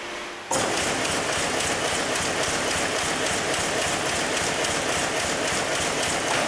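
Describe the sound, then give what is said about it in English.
An old shuttle loom weaving undyed thread for denim, a loud, dense mechanical clatter that starts abruptly and runs on steadily with a fast, regular beating rhythm. “to see the other older shuttle loom that's weaving just the undyed thread that will be used to make jeans for next year's summer collection.”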